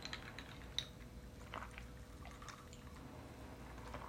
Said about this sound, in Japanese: まずちょっと喉かいたんで飲みます